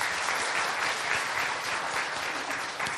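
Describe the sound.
An audience applauds steadily, welcoming a father and his daughter to the stage, the clapping dense and even for the whole stretch.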